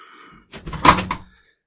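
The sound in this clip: A window being opened, played as a sound effect: one short, rough scraping burst under a second long that swells and then cuts off, heard alone after a faint hum.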